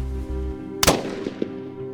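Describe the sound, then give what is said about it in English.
A single sharp, loud gunshot fired at a man's head during a robbery cracks out abruptly, its short tail decaying quickly, followed by a couple of faint knocks over a low, steady hum. “Tony shot Dr. Scudder once in the head.”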